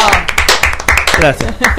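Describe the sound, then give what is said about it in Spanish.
A group applauds a swimmer with fast, dense clapping, bright irregular slaps overlapping in quick succession, loud and lively, mixed with voices. “Aplauso para Pablo. Aplauso para Pablo.”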